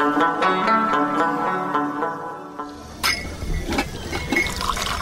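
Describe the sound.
Liquid is poured into a glass until it is full, giving a steady, ringing pouring tone for about three seconds, followed by a sharp knock and messier splashing.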